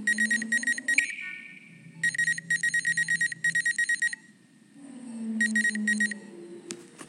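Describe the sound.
Electronic beeping from a medbay body scan in the Among Us video game: rapid bursts of high beeps come in several groups separated by short pauses, over a low steady hum.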